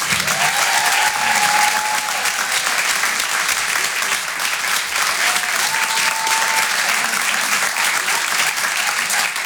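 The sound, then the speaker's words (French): Loud applause from an audience at a comedy club, a dense, continuous clatter of clapping that holds steady from start to finish. “Je vous demande de l'encourager. Faites un maximum de bruit, s'il vous plaît, pour Thomas Christin”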